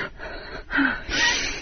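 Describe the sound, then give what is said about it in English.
A person gasps and hyperventilates in a few sharp, breathy inhalations heard on their own, with no speech, each a quick rush of air. “I think I'm hyperventilating. Well, easy. Deep breath.”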